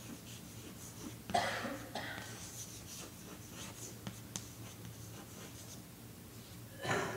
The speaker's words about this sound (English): Let me write it down.